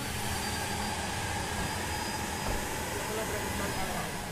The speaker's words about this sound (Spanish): El avión despega